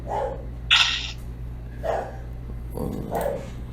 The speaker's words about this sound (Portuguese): Aí agora o cachorro inventa de latir.